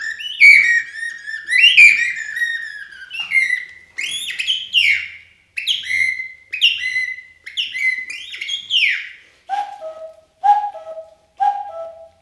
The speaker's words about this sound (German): Dann wird's langsam hell. Die ersten Vögel.